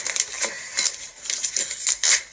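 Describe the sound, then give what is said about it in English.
Crisp paper ripping as a sealed envelope is torn open, heard as many quick, crackling bursts of tearing and rustling in an uneven rhythm, with no voices. “That's a sealed envelope addressed to my parents. Now they're going to know I opened it.”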